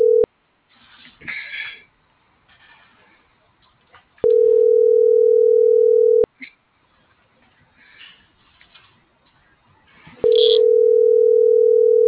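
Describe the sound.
Ringback tone of an unanswered telephone call: a steady, low-pitched tone lasting about two seconds and repeating after roughly four-second pauses, with faint rustling noises between the tones.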